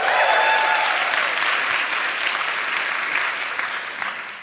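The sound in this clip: An audience at a live talk event applauds and cheers in agreement, a dense, steady wash of clapping that stays loud throughout and eases slightly toward the end.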